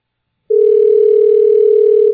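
A telephone dial tone sounds as a single steady, loud, unwavering tone. It starts abruptly after a moment of silence, holds for under two seconds, and cuts off sharply.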